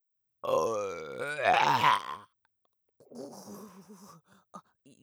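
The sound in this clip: A long, loud, voiced burp stretches out and rises in pitch, then breaks off. After a short silence come quieter, croaky, gurgling belches.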